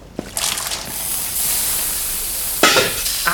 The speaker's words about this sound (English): Fire, the pan's on fire